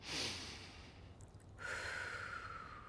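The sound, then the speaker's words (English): One breath during a guided gratitude meditation exercise: a sharp nasal inhale opens, then after a brief pause comes a longer, steady, breathy exhale through the mouth, with no talking. “Let's practice. I want you to breathe in through your nose and out through your mouth.”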